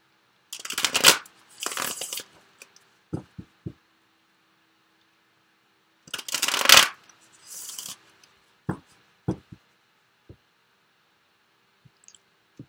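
Tarot cards shuffled in two separate bursts of crisp, papery riffling, with scattered sharp snaps and taps of cards in the quiet gaps between.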